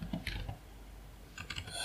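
Faint computer keyboard typing while entering an online search: a quick cluster of soft clicks at the start, a pause, then another short run of keystrokes near the end.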